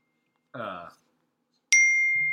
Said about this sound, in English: Whose phone is blowing up?